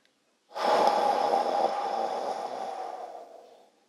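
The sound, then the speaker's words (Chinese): A slow, deep breath drawn in and let out during a children's guided meditation, one long, airy rush lasting about three seconds before it fades away gradually. “来，我们深深的吸气。再慢慢的吐气，”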